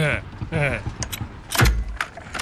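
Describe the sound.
A gun safety catch is opened and closed, giving short mechanical clicks and a ratcheting creak. A voice is briefly heard at the start.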